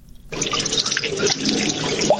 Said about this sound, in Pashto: د اوبو دا شور په برمرانی کې موجود جوړ شوی تالاب دی